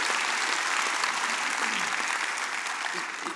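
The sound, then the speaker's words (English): A church audience gives a round of applause: dense, steady clapping that holds at an even level for the whole stretch and eases slightly at the end. “And can you just give Sam, just right now, just a big round of applause?”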